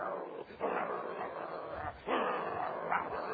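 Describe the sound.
A voice imitates a big, scarred fighting dog with a split, hanging lip: a rough, continuous growling snarl in two long surges.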